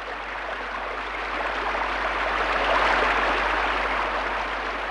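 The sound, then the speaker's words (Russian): Heavy pouring rain gives a dense, steady hiss with no breaks, swelling slightly midway and with no voices over it. “Ну и льет. Я в самом деле весь промок.”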